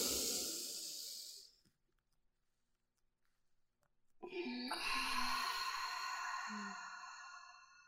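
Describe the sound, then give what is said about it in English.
Deep breathing: a long, hissing breath fades into silence, then after a pause a second, longer breathy sound follows with soft tones beneath it. “Let's breathe.”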